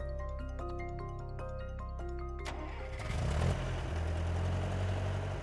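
Car engine starting and running as the driver pulls away, coming in after a stretch of soft plucked musical notes and settling into a faint, steady low rumble.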